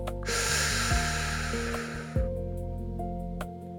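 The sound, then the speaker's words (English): A long, breathy inhale through the mouth, part of a guided breathing exercise, lasts about two seconds as a soft hiss over quiet sustained tones, then fades. “Would you join me in three breaths before we go any further? In through the mouth.”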